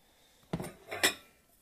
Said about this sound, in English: This episode's going to have a lot of clanking noises in it.